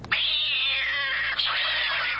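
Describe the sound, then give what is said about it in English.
A studio cat gives two drawn-out, loud meows one after the other, with no other sounds around them. “Now we got Gatto, the studio cat.”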